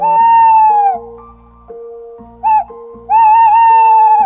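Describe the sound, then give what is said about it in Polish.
A male tawny owl's territorial call played back from a device: a long wavering hoot, one short note, then another long wavering hoot, all clear and fairly loud over a steady low hum. “To jest głos terytorialny samca puszczyka. To jest głos potencjalnego rywala.”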